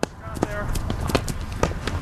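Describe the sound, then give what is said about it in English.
Hurling drill with players running and swinging wooden hurleys, many sharp irregular wooden clacks over quick footfalls, with voices in the background. “That's the sound of players running a drill, practicing the traditional Irish sport of hurling. Players are armed with just a helmet and a wooden stick called a hurley.”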